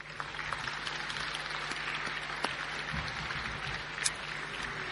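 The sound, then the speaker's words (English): Applause from an audience at an evening event welcoming championship-winning National Soccer League teams, past and present. The clapping is faint and steady, with a couple of sharper claps standing out. “Ladies and gentlemen, please join me in welcoming and acknowledging all members of our championship winning National Soccer League teams, past and present. Please put your hands together.”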